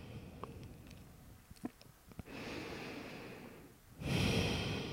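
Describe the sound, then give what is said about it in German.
Slow, deep breathing in and out during a guided relaxation exercise, heard as two long, soft breath sounds after a few faint clicks, with the second breath louder and alone without talk. “Ein paar Mal tiefe ein- und ausatmen.”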